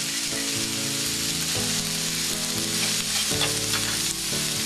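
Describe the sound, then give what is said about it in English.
Mushrooms sautéing in a pan give a steady, dense sizzle and hiss of frying that holds at an even loudness for the whole stretch, with low tonal sounds underneath. “And then my mushrooms. And let them saute until they get a little brown.”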